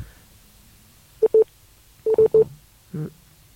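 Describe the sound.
Telephone dialing tones sound as a phone call is placed. Short, clean keypad beeps come in uneven bursts, first a pair, then a quick group of three, then a softer final tone, with quiet in between.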